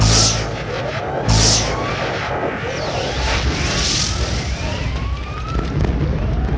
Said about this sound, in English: Oh no, they are firing some space missiles.